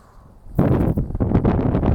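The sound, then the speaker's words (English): Strong wind buffets a handheld microphone: faint at first, then a sudden loud, rough rumbling roar from about half a second on that keeps surging and dipping in uneven gusts until the end. “Oh, there's some really strong wind, sorry.”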